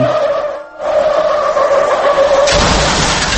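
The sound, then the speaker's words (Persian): Tires skid and squeal as a car speeds away under hard acceleration: a loud, sustained screech over rough roaring noise, briefly dipping early on, then turning harsher and broader toward the end. “دقیقا با همین سرعت که شنیدید این ماشین رفت، یعنی پاشو گذاشته بود رو گاز داشت میرفت”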